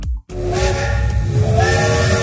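A steam train whistle sounds. A short burst and a brief pause are followed by a long, loud, shrill sustained blast with a steady pitch, mixed with hissing steam.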